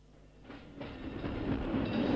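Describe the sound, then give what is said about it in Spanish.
A train rumbles in the distance, a low, broad roar that swells steadily louder over about two seconds, with no voices. “Decime, ¿escuchás el tren a lo lejos?”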